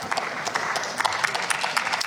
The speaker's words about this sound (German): Applaus